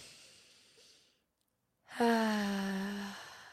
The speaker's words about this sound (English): Let's just all take a breath, because I think the coffee has got to me. So let's just breathe in.